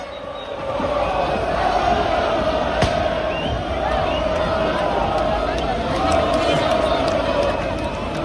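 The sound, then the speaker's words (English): Roar of about 60,000 football fans cheering as they welcome their team back after a French cup final win, a loud, sustained wash of crowd noise with shouts rising and falling throughout. “That is the sound of 60,000 Lens fans welcoming their team back after they beat Nice to win the Coupe de France for the first time in their 120-year history.”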